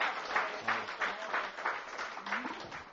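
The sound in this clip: Group applause at a support-group meeting for families of alcoholics, moderate clapping that swells and dips in uneven waves, with voices mixed in underneath.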